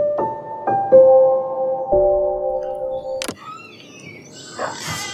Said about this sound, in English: you probably don't recognize that sound. It's the communication of orcas, recorded in Antarctica.